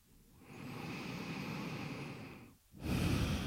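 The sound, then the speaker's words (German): Slow, relaxed breathing during a guided relaxation: one long, soft, airy breath lasting about two seconds, a short pause, then the next breath begins a little louder. “Lass den Atem entspannt ein- und ausströmen.”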